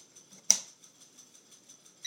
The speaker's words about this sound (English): There's the first click. And the first click turns it on, and it also turns on the first function, which I just so happen to know is voltage.